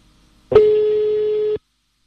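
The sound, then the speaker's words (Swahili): A single steady telephone tone sounds after a phone call is cut off. It is one clear mid-pitched beep lasting about a second, heard alone with no talk. “Isaya, kwa nini umekata simu ndugu yangu bana? Imekatika yenyewe.”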